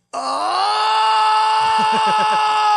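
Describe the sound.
A man imitates another man screaming with a loud, sustained, wailing groan. Its pitch lifts slightly at the onset and then holds steady, and a few low, rhythmic grunting pulses come in near the end.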